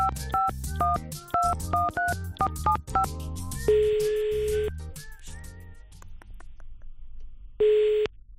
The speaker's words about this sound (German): Das Amt ruft jetzt bei ihm an.